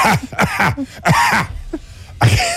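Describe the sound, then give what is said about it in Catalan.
A voice imitating someone coughing in a theatre audience: a loud run of several short, harsh, throaty coughing bursts with small gaps between them, ending with one last burst. “El problema és quan al mig d'una frase hi ha algú que li ve la tos i fa”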